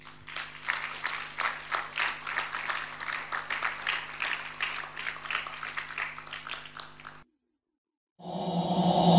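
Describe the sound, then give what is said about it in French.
A Christian audience applauds to acclaim the Lord with many hands clapping in a pulsing, sustained wave. The clapping breaks off into brief silence before a different tonal sound starts. “Acclamons le Seigneur.”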